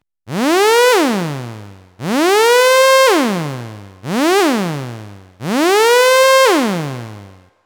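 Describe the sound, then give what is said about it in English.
Four gliding analog synthesizer notes, their pitch swept by an envelope generator. Each bright, buzzy tone swoops steadily upward and then drops away abruptly, with short silences between them. “Or you could go a bit more weird and use the envelope generator to control the pitch, creating cool gliding sounds like this.”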